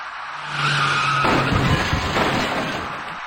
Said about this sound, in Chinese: 后面那位骑车人却被一辆由西向东而来的白色小客撞翻在路面上，骑车人和他所骑的电动自行车重重地摔倒在地。